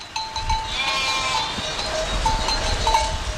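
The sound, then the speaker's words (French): Sheep from a flock resting in the shade of a tree on an alpine pasture, with a few faint, thin bleats over a steady background hiss and low rumble. “Sur l'alpage, pour l'instant, tout est calme. Julien Josserand promène son regard sur son troupeau regroupé à l'ombre d'un arbre.”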